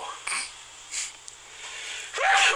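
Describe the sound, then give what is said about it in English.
A sneeze ends in a sharp, breathy burst, preceded by a couple of short, softer airy breaths, heard alone without talking. “That's how you sneeze, by the way.”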